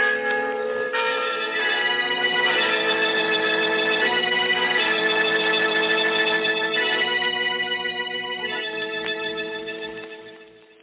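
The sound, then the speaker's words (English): Church bells ringing from an estate bell tower: a loud, dense clangor of overlapping metallic tones that rings on without a break and fades away near the end, with no voices. “You bought those bells. Now let them ring your requiem.”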